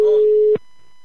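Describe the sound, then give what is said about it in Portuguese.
A telephone call tone sounds as a single steady electronic beep lasting about half a second, then cuts off abruptly into near silence. “Eu vou ligar agora pra Zulane. Vou ligar pra Zulane. Vou ver se ela pega”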